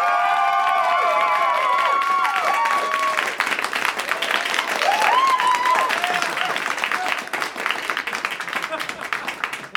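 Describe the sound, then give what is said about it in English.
Live audience applause with whoops and whistles as the crowd votes for a contestant at a comedy show; loud, dense clapping holds steady throughout, with shrill whistles and cheering voices most prominent early on. “So, now with your applause, starting with Eliza Skinner, VeggieTales.”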